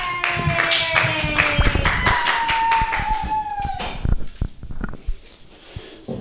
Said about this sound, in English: Everybody put your hands together for Ian Levy.